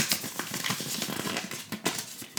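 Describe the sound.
Paper slips rustle and crinkle as a hand rummages in a hat to draw one, a continuous dry crackle with a few sharper bursts of crumpling.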